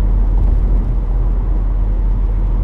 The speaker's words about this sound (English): I'm heading home right now. I'm driving.